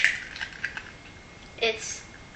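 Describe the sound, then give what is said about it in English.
Eggs knocked against a greased plastic pan that makes them hard to crack, with a few light taps followed by one firmer, crackling knock as the shell is smashed. “So now I'm going to crack my 2 eggs, being that I've got the pan all greased here.”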